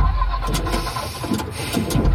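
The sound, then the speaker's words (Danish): Rough, sputtering engine noise of a leased car breaking down on the Motorring 3 motorway, a dense, steady rumble with irregular faltering bursts. “Lad os sige, at din leasingbil bryder sammen midt på Motorring 3.”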